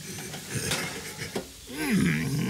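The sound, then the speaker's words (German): Cookies being taken out of an oven, with light metallic clinks and clatter of a baking tray and pans, a few scattered knocks over low background noise. “Jetzt hol die Kekse aus dem Ofen.”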